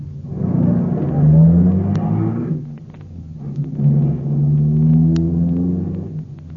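A car engine revs and pulls away to answer an urgent fire call. Its loud rumbling tone climbs in two surges, with a brief dip between them, and a few faint clicks sound over the engine.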